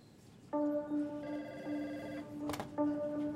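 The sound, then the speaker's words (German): A telephone rings with an incoming call: steady electronic tones come in two stretches, separated by a short break with a brief click-like burst, and the line is otherwise quiet with no talk. “Es ist Frühjahr 2004 und Bacardis Topmanager Jorge Rodriguez Marquez bekommt einen Anruf von einem seiner Lobbyisten in Washington.”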